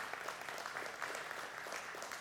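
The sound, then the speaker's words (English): A church audience's hand clap, a faint, steady, even patter of many hands clapping together without a break for the whole moment. “let's give Lord a hand clap. Thank you, Lord.”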